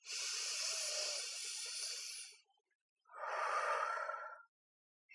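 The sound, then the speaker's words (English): A deep breath: a long, airy inhale of about two seconds, a brief silence, then a shorter breathy exhale, soft and alone. “let's just take a deep breath to close today”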